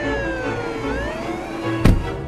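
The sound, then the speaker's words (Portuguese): A rescue vehicle siren wails with a pitch that sweeps up and down, holding steady under a constant background, with a sharp loud burst shortly before the end. “Ouvimos a sirene do resgate.”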